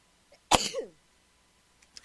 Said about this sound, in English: just had to stop and sneeze. I don't think that's ever happened in all the years that I've been on the air. I had to sneeze.